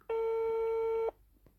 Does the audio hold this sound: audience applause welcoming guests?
no